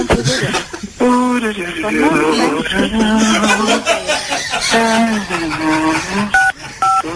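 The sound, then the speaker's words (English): Telephone keypad dialing tones on a call to an embassy's automated phone menu: a few brief, steady electronic beeps sound near the end, after a stretch of talking and chuckling. “For visa inquiries or consular matters, please dial 1 now.”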